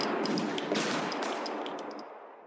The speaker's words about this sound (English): The prisoners could hardly have reached the bush when half a dozen shots were heard.